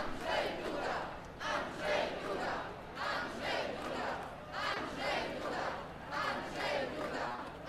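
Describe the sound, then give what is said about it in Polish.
A crowd of residents in Białystok cheers and chants to welcome the president as he heads to a stage to speak. Many voices rise in a steady, rhythmic chant, with loud surges about once per second. “Posłuchajmy, jak białostoczanie witają prezydenta.”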